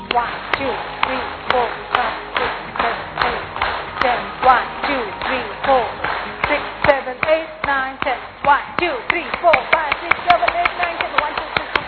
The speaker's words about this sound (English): First is the clap, front, but other clap, back. Ready? Okay, first is clap.